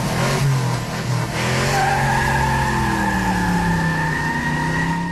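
A car driving sound effect plays alone: a loud, continuous engine roar with a strong tonal whine that holds steady for the whole stretch.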